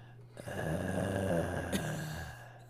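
Low, breathy moaning from the video game Elden Ring, heard as ambient sound while walking through a city; one drawn-out groan with a rough, growling texture swells and then fades over about two seconds.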